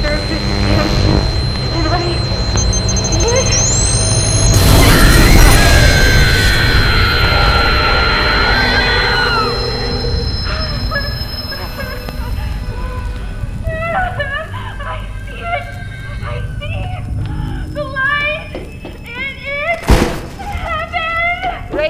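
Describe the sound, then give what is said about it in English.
An explosion sound effect in a science-fiction audio drama bursts out loudly near the start, followed by a long, sustained roaring tumult with chirping electronic tones and a sharp crack near the end, with no voices. “An explosion. A tumult.”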